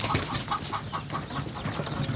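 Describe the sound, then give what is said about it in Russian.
Chickens clucking as they peck crumbs around a table on an open hotel veranda: a steady run of soft, short clucks at a moderate level, with no talk over them. “У стола, склевывая крошки, ходят куры.”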